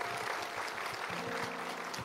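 Applause from a church audience: a dense, even wash of many hands clapping at a steady level throughout, with a sustained low tone joining about halfway through.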